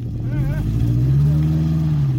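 The engine of a pickup truck crowded with travelers drones steadily, a loud, low rumble that rises slightly in pitch midway.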